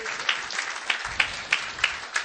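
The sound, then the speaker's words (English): A church audience applauding to welcome a couple: steady crowd clapping, with louder claps punching through at a regular pace, about every third of a second. “Give them a big hand and welcome them to the greatest church in the world.”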